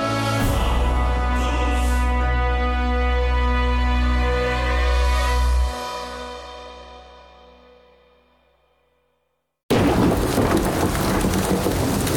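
A thunderstorm with rain in an audio drama: a loud, deep rumble fades out slowly into near silence, then dense, steady rain noise starts abruptly and keeps going to the end.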